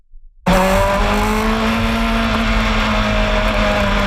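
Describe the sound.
IndyCar race cars run on the circuit at Markham, near Toronto. After a short quiet start, a loud, sustained engine whine bursts in and holds steady with high droning tones to the end.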